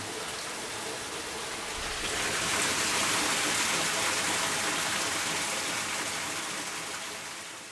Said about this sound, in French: Et en effet, on entend l'eau parce que ce moulin-là, ainsi que le troisième moulin, sont carrément situés sur le cours d'eau.